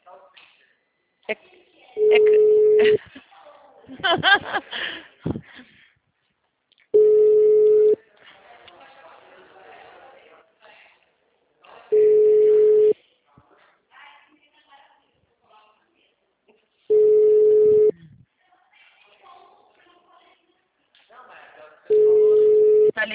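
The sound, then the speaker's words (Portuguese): A telephone busy signal on a call-center line, heard as five steady mid-pitched tone bursts of about a second each, spaced roughly five seconds apart, with quieter sounds in between. “Tá ligando? Nós também, tá tudo desse mesmo jeito. O número está ocupado.”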